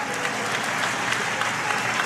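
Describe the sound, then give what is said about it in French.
A stadium crowd gives a sustained ovation to a footballer heading to the locker room at the end of the match, with dense, steady applause holding at an even level throughout. “Mathieu Strasel qui rentre au vestiaire sous une ovation bien méritée.”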